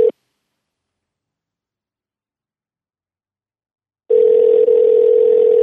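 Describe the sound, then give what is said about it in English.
A steady telephone line tone sounds as a call is placed to an office: a brief blip of tone at the start, silence for about four seconds, then a continuous, loud, even tone to the end. “Yeah, let's call the old office. Let's see what he's up to. All right, let's see who we get on the line here.”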